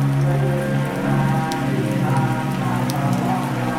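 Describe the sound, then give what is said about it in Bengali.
Light rain patters steadily outside a monastery during a power cut, a dense, even hiss broken by scattered drop ticks that runs unbroken throughout. “বাইরে টিপটিপ বৃষ্টি শুরু হলো”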